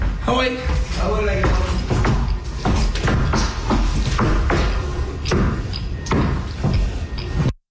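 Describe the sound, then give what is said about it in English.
A moose stomps on the floor of a house it broke into in Trois-Rivières: many heavy, irregular thuds and shuffling knocks keep up over steady background voices, then cut off. “Well, that is the sound of a moose stomping on the floor after it broke into a man's house.”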